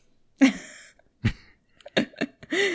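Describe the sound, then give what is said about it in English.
A man coughs in a few harsh, short bursts separated by brief pauses, ending in a brief voiced sound. “can you cover your cough, man?”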